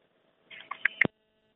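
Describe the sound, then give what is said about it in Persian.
A listener's phone call cuts off during a radio call-in program: a few brief electronic beeps end in a dull thump, with silence before and after. “بله، تماس این شنونده ما متاسفانه قطع شد.”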